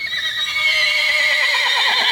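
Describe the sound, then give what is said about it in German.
A horse neighing in one long, loud, quavering whinny that holds steady across the whole clip, heard on its own. “Wer war dieser Incitatus? Sein Pferd.”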